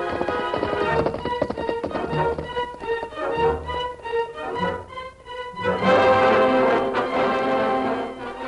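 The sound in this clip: Horses galloping on a road during a pursuit, rapid rhythmic hoofbeats running steadily beneath loud, dramatic orchestral music that swells near the end.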